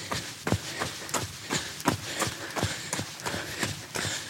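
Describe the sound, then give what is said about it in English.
Running footsteps heading into a garden, a steady, even rhythm of many firm thudding steps with no voices. “And to finish, I'm just going to run into her garden.”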